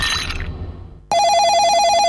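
A telephone rings with a bright, warbling electronic tone that starts abruptly about halfway through, after a brief fading sound and a moment of near silence.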